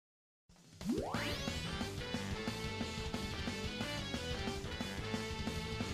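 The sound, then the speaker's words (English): Video game audio from Mario Tennis Ultra Smash: a fast rising whoosh sweeps up into steady, bright music with a regular beat that continues evenly to the end. “This is Mario Tennis Ultra Smash. Could you tell?”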